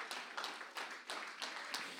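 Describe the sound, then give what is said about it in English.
Church audience clapping their hands in praise, faint and rhythmic, with a steady beat of sharp hand claps repeating several times a second. “Oh, go ahead and clap your hands unto the Lord and give him praise.”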